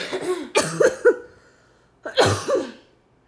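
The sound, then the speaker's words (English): Harsh coughing from someone who has had a cough for four months comes in two short bursts of a few coughs each, separated by a quiet pause, with no talk over it. “This has been 4 months with this fucking cough”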